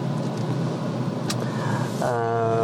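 A car on the move gives a steady low engine hum and road rumble, with a brief click partway through and a tonal hum joining near the end.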